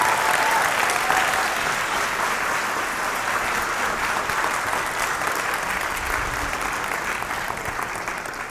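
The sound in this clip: A church audience applauds loudly on Easter Sunday, a steady, dense wash of clapping that runs unbroken for the whole stretch with no clear voices above it.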